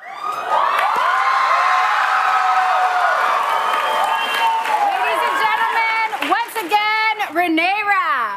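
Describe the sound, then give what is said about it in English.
A live studio audience erupts into loud cheering as it recognizes a surprise celebrity guest, a sustained roar topped by high shrieks and whoops that grow more frantic and pitchy toward the end. “Have a listen as the studio audience realizes it's McAdams.”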